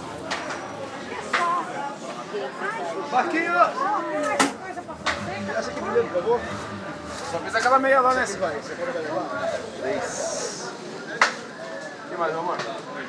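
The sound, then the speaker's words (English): Crowd chatter at a local produce market in São Paulo, Brazil: a steady murmur of many overlapping voices with occasional sharp clacks and knocks cutting through the bustle. “Anyway, that's the sound of a local market here in São Paulo, Brazil.”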